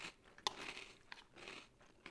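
Crunching of cereal while chewing, with one sharp crisp crunch early and a few softer crunches after it, all faint with no talk.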